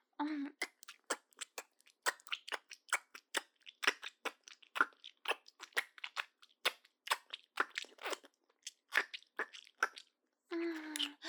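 Pizza being chewed and crunched close up, many crisp wet bites and mouth sounds in an uneven rhythm, fairly quiet and without talk.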